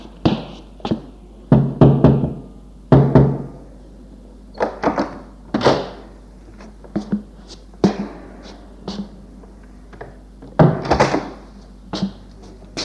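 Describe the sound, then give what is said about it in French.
Someone knocks on a door at a home. Many hollow, sharp thuds come in irregular clusters of two or three, with short pauses between groups and no talk. “Il frappe chez Jean.”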